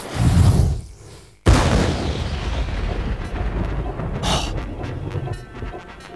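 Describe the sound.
A regiment's gunfire volley: a low rumble gives way to a sudden loud crack, then a long, rolling roar that slowly settles.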